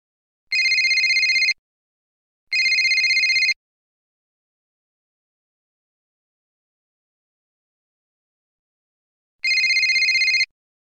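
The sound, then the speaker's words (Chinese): A telephone rings with an electronic tone in three one-second bursts, alone. Two bursts come close together, then a long silence before the third. “对不起，我先接个电话。”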